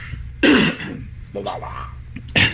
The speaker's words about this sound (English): excuse me, choking on something over there.